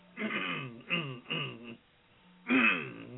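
Throat clearing from a person with something stuck in their throat: three rough, voiced rasps in quick succession, a short pause, then a fourth, louder one.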